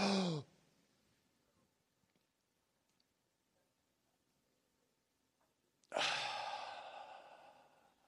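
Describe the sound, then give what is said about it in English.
A person takes a deep breath: a short, sharp inhale, then a long quiet hold, then a long, forceful sighing exhale that slowly tapers off. “Here we go. Big breath.”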